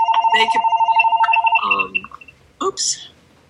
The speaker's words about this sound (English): that's my phone. That's the other phone.